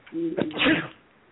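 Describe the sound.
A single human sneeze, a brief breathy build-up breaking into a sharp, loud burst before fading to quiet.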